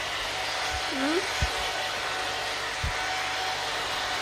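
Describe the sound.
A hair dryer blows in a steady, even whoosh that never lets up, with a brief vocal sound and a few soft low thumps underneath it.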